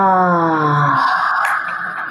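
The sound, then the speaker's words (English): A deep breath is exhaled with a voiced "ah" during breathwork: one clear, sustained vocal tone that thins into breathy air as it fades out. “Once more, take a nice big breath in, exhale, saying,”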